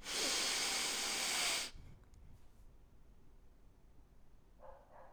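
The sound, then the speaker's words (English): A church audience breathing out together in a slow group breathing exercise: one loud, airy rush lasting under two seconds that then drops to near quiet. “We're going to inhale for 4 seconds, exhale for 7, hold it for 7 and exhale for 8. Are you ready? Let's breathe, church.”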